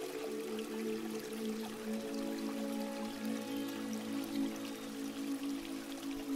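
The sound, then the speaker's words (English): Roaring water flows in a faint, steady rush that stays even throughout, with no voices. “feeling the roaring of the water”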